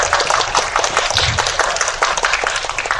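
Applause from a studio audience for two game-show contestants: dense, steady clapping that stays loud and even from start to finish with no pauses.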